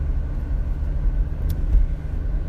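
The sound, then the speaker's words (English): Steady low rumble of a car being driven on the road, a constant engine and road drone that holds even throughout with no talking. “which is why I am driving while I'm recording this one, because it's the only time I'm by myself anymore”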